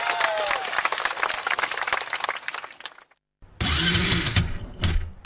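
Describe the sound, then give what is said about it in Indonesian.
An old motorbike engine being started: a long, noisy, crackling cranking sound for about three seconds, a brief silent pause, then a loud, low rumbling as the engine runs to the end. “Halah yung, sing angel kuwi dudu nguripke motor, Mbak.”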